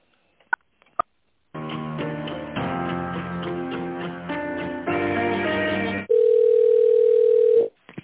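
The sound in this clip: Telephone tones during a call transfer: a few faint clicks, then a sequence of electronic melodic chords that change about once a second, ending in a single sustained steady beep of roughly one and a half seconds.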